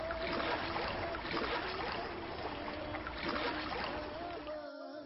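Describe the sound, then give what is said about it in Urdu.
A boat moving through water, with continuous rushing and splashing over a faint steady drone, fairly quiet and unbroken throughout. “کشتی کشتی”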